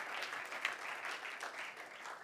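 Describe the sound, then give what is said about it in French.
Church audience applauding at a worship service, a steady dense wash of clapping hands that holds evenly loud for the whole stretch without voices. “If you believe it, si tu le crois, put your hands together. Acclame. And give Jesus the glory.”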